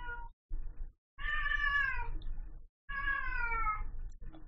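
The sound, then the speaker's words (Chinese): A cat meows: two drawn-out, wavering, fairly high meows separated by a brief silence, preceded by a couple of shorter, quieter cries. “你听到只猫喺度叫啊？”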